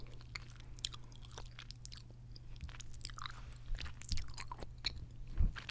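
Crunchy chewing of a Colombian snack filled with arequipe, a sweet caramel-like milk spread. Many moist, crisp bites and chews sound alone over a steady low hum, with a louder crunch near the end.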